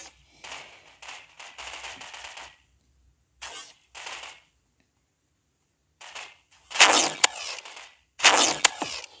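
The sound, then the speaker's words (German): Gunfire in a Roblox video game: short bursts of crisp, clicky shots, several softer bursts early on, then two louder, harsher volleys near the end, separated by brief silences. “und schieße alles und jeden.”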